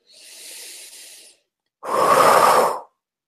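Slow breathing during a guided relaxation exercise: one soft, airy inhale, then after a short pause a louder, fuller exhale. No voices.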